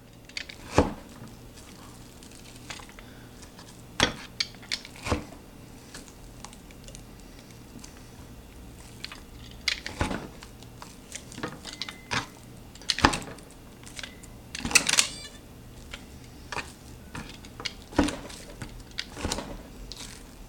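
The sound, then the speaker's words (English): A sharp-spiked meat tenderizer pounds a cut of meat. It gives crisp, slapping thuds at irregular intervals, some loud and some softer, with no talking. “I'm going to really tenderize this.”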